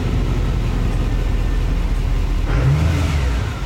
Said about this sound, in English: It's a Duramax. Yeah, and I think it's a newer one. It's a newer one because for sure. Because it's super quiet, and that the starter is like... Really that, fast.